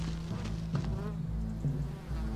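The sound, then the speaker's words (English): Bees buzzing around a tree: a low, steady insect drone that holds at a constant pitch throughout, fairly faint and without pauses. “It's just bees. Maybe there's a hive.”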